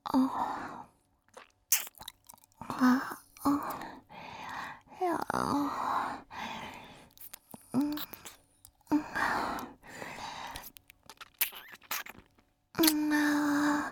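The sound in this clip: Crunchy chewing of hot, hard food, many irregular crunching bursts with breathy sighs and soft vocal sounds between bites.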